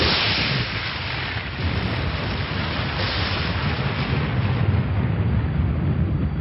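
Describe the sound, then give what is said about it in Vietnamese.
Deep rumbling thunder rolls on outside an old ruined fortress after the rain has stopped, a loud, dense, steady low roar that continues without a break throughout. “Ngoài tòa cổ lũy hoàng phế, mưa đã ngớt từ lâu, song tiếng sấm trầm đục vẫn vang lên đùng đùng như chưa từng dứt.”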